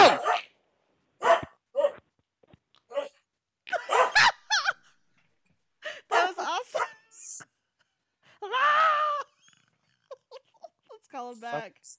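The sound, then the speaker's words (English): A dog barks in a scattered series of short, sharp barks, with a drawn-out whining howl partway through and quiet gaps between the bursts. “Your dog started barking.”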